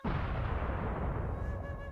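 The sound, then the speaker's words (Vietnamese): A loud explosion sound effect of a defensive barrier being blasted open: a sudden heavy blast that rolls straight into a dense, roaring low rumble lasting to the end, with faint ringing tones creeping in late. “đột nhiên bên ngoài vang lên tiếng nổ lớn,”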